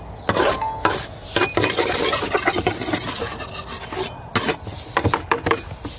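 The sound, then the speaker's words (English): Spatulas scrape away dirt in a video game, many irregular rasping strokes, some sharp and loud, others softer rubbing, with no talk. “It's just them using spatulas to break the dirt. That's what I'm doing. Don't ask me why they're using spatulas. Because I literally have no answer for you. See, I'm making the dirt disappear, see?”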